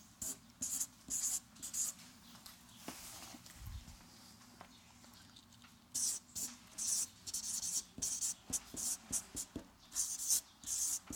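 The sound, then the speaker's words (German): A pen scratches on paper as words are written down. There are two stretches of quick, faint scribbling strokes, a few at the start and many more in the second half, separated by a quieter pause. “Und ich schreibe es erstmal auf.”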